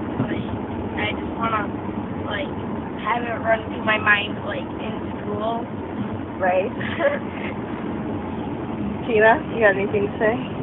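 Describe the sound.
A car driving, heard from inside: a steady low engine and road rumble runs throughout, beneath people talking.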